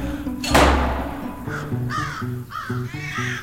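Crows caw, starting after a single heavy thud. Many harsh, rasping caws then follow in a quick uneven series at a fairly steady loudness.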